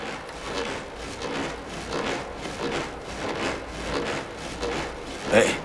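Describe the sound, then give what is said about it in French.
Something swinging rubs with a wooden scraping sound, many times in a steady back-and-forth rhythm. The rasp rises and fades with each swing, and a louder scrape comes near the end. “et ça me fait comme une balançoire. Et quand je me balance, ça frotte et ça fait du bruit.”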